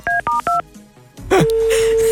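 Landline telephone dialing: three short, crisp dual-pitched keypad tones in quick succession, a pause, then a steady line tone that holds to the end.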